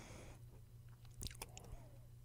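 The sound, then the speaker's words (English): Food is being chewed, very faint and quiet, with a few soft crunching bites clustered near the middle and no talking. “So excuse me for chewing. I got caught off guard here.”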